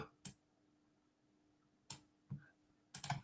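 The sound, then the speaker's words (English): Faint clicks of buttons being pressed: a few sharp, isolated taps separated by quiet, the last one a quick cluster, with no talk. “Okay, let's click buttons. There we go.”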